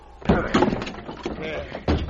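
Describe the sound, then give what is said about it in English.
A wooden door being shoved open by two men: a few heavy bumps and thuds as they push against it together, with voices heard between the pushes. “Now, let's get the door open. Now, look out while I shove. It'll take more than your weight. Let me help. Now, together. And once more.”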